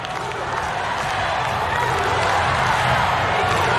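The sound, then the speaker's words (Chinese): A volleyball crowd jeers and cheers during a serve, a dense, continuous roar of many voices holding at a steady loud level throughout, with no breaks. “可以看到观众一直在起哄。”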